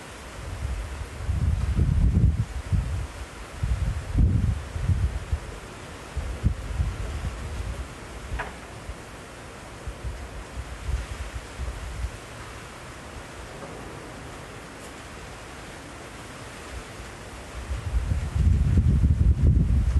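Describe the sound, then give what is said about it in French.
Strong wind on the Basque coast of southwest France, heard as low, rumbling gusts surging over a constant broad hiss, with heavier buffeting near the start and a loud swell at the end. “nous allons écouter maintenant un gros vent analogique du Pays Basque.”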